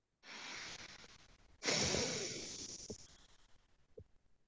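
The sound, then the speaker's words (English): Deep exhaling: two long, breathy exhales, the second stronger and slowly trailing off, with a couple of faint clicks afterward. The whole passage is quiet. “A lot of deep exhaling on this one.”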